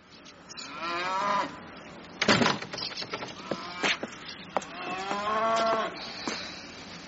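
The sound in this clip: A cow that needs milking lows loudly in a few long, drawn-out moos with a rough, harmonic tone, heard alone without talk.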